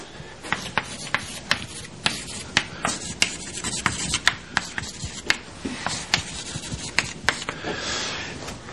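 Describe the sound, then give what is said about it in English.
Chalk-free description aside, a lecturer writes on a board during a mathematics lecture, producing many quiet, sharp taps and scratchy strokes in an uneven rhythm, with no talking over them. “Perhaps I'll write that here.”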